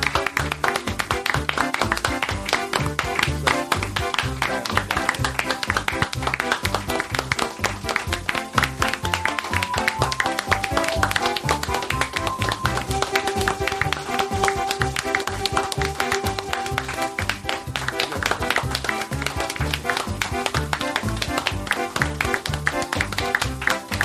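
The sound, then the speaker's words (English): An audience claps energetically for a sustained stretch of many rapid, crisp hand strikes at a steady, driving level. Faint held tones sit underneath the clapping. “That clapping was energetic as shit.”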